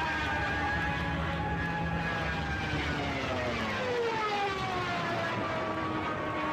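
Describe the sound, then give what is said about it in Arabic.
German Stuka dive bombers roar in a loud, continuous drone, with siren-like wailing tones that slowly fall in pitch throughout. “الصوت الذي تسمعونه هو صوت طائرات ستوك الألمانية.”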